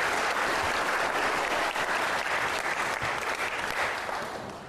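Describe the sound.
Audience applause welcoming a speaker to the stage at a lecture event: dense, steady clapping from a crowd, sustained at full strength before gradually fading toward the end.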